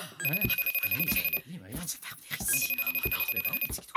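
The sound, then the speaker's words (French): A video call ringing in two trilling bursts, each a rapid, high-pitched pulsing ring lasting just over a second, separated by a short pause and sounding over other sounds underneath. “je vais l'appeler tout de suite euh, par vidéo”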